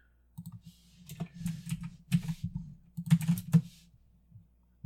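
Typing on a computer keyboard: many crisp, irregular key clicks in uneven bursts, some louder strokes clustered together, with no talking over them.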